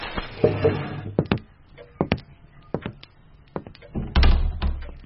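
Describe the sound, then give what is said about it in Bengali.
A door closing: a few light clicks and taps spaced out, then a heavier low thud near the end as it shuts. “দরজা বন্ধ হওয়ার সঙ্গে সঙ্গেই ঘরটা যেন হঠাৎ শূন্য হয়ে গেল।”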